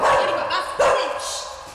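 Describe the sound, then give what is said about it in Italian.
A dog barks in short, sharp bursts over a noisy background, with the loudest bark near the middle. “C'è un cane? Oh, è bellissimo! Bravo!”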